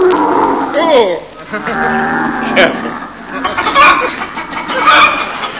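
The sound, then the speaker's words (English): Camels being ridden make a run of loud groaning and bellowing calls: several throaty moans, one with a rising-then-falling swoop near the start, follow one another with little pause. “We rode in silence, save for the odd noises camels are wont to make.”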